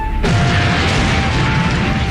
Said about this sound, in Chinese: 突然远处传来了爆炸声，铁院长等人一下子都愣住了